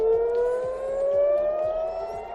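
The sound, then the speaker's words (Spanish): Air raid sirens sound across Jerusalem and Tel Aviv after Iran's response to a US strike, a loud continuous wailing tone that climbs slowly in pitch throughout, with no voices. “Y este es el sonido de las sirenas que hace unos minutos se han escuchado en Jerusalén y en Tel Aviv.”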